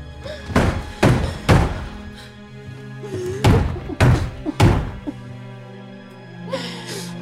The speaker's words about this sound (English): Beside himself with remorse, he slams his fist into the doorframe.